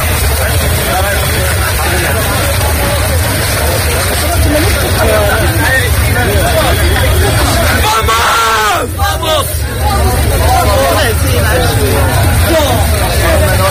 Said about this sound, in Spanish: Con este sonido accedían por la tarde de este jueves desde la frontera del Tarajal, mojados, algunos jóvenes, mayores, familias enteras, bebés, gente muy joven